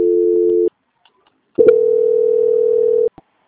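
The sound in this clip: Telephone tones sound during a call transfer after an invalid extension: a short steady tone, a pause of silence, then a longer steady tone of about a second and a half, followed by a faint click.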